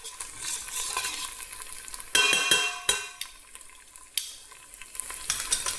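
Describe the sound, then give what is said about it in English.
Pesto heated and stirred in a pan for pesto pasta: a soft, continuous sizzle broken by a few sharp scraping and clinking strokes of the utensil against the pan. “Just roughly heat up the pesto.”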